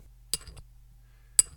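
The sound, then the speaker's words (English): Glass clinks twice, about a second apart. Each is a quiet, sharp, bright tick with brief faint rattling after the first. “That's clearly glass.”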